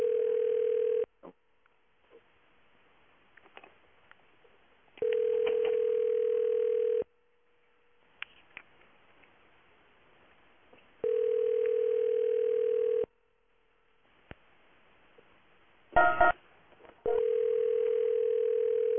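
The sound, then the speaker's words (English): Ringback tone of an outgoing telephone call to a radio station: a steady electronic tone in roughly two-second bursts separated by about four seconds of near silence, four bursts in all, with faint clicks and a short burst of noise before the last. “Oh, answer the phone, noobs.”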